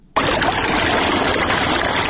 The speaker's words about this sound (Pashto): سیف الله د ترینکوټ ښار اړوند سفید خار سیمه کې د انارو پر باغ اوبه لګوي.